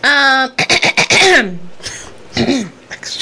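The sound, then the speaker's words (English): A person clears their throat loudly in a few harsh, rasping bursts mixed with short voiced grunts. Quieter throaty rasps follow. “Just had to clear the throat”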